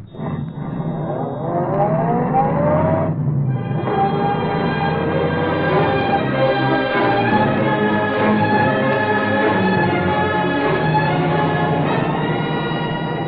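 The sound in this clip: A taxi cab drives hard in pursuit of another cab. Its engine revs climb steadily, dip briefly, then hold a loud, continuous droning roar with no voices.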